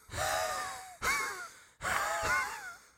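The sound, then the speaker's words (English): A person deliberately wheezes in the throat, producing three drawn-out, raspy breaths with a strained, whistling tone, each starting abruptly and fading, fairly quiet and with no speech. “I hear some wheezing. It's a thing that I can do to make my throat sound like I'm dying. That doesn't sound purposeful. It is purposeful. Really, that wheeze?”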